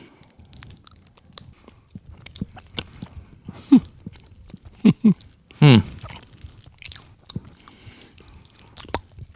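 Biting into and chewing a Korean-style poppy seed cake: soft, moist mouth sounds with a few louder crunchy bites clustered in the middle, then quieter chewing.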